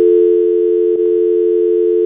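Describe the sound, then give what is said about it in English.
Telephone dial tone: a steady, unbroken mid-pitched hum that holds at a constant level, interrupted only by a faint click about halfway through. “Why is there just a dial tone? It's not dialing.”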